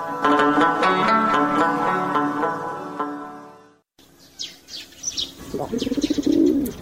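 A pigeon perched on a wall coos in a low, throaty, rolling burst near the end, preceded by a few brief high chirps after a sustained tonal passage fades out.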